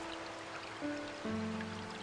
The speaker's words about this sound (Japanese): 弥生姫は一人で川辺に佇んでいました。